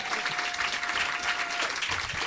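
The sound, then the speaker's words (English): An audience claps at a live storytelling event, a full, steady wash of applause with no breaks, holding at an even level throughout with a faint sustained tone underneath. “Thank you for the clap.”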